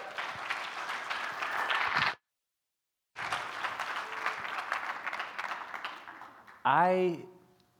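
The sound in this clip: Audience applause welcomes a speaker, a dense patter of clapping that breaks off for a moment of silence, resumes at a steady level, then gives way to a voice speaking near the end.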